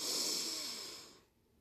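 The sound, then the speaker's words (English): A single deep inhale during a guided breathing exercise: soft, airy breath noise that holds fairly even for about a second, then fades away into near silence. “Step 5. Deep breath in.”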